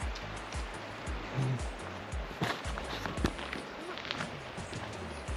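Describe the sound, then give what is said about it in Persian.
Wind blowing through trees makes a soft, rushing rustle that swells and eases in small gusts, quiet and continuous. “عاشق این صدای بادم که میفته تو درخت‌ها. این حال خوبی رو تولید میکنه.”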